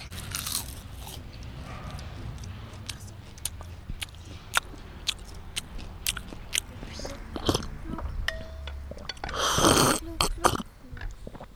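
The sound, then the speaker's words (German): Chewing and crunching from people eating a meal in a dining hall: many sharp, crisp bites and mouth sounds run throughout, ending in a denser, noisier burst near the end. “Dann gehen Schneewittchen und die alte Königin im Speisesaal erstmal essen.”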